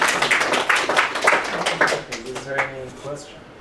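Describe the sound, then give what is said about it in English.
Scattered clapping from an audience at the close of a talk, a loose patter of separate sharp claps that thins out, after which a voice starts speaking. “So you can clap if you want.”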